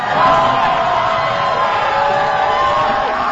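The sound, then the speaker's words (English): Fans in violet cheering at Standard Deviant Brewery in San Francisco as the Golden State Valkyries clinch an overtime win over the Las Vegas Aces. Loud, continuous crowd roar with overlapping shouts and whoops. “fans in violet erupted in cheers at Standard Deviant Brewery as the team clinched the win in overtime.”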